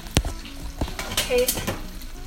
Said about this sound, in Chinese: 要加入洋葱，哇，奶油融化的好快哦，真的很快耶。